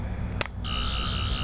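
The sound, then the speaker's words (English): A Fifth Doctor sonic screwdriver toy from Doctor Who gives a sharp click. Then comes a steady, high electronic whine with a slight warble that holds to the end. “This is the sound of the Fifth Doctor. Wait, this Fifth Doctor sound.”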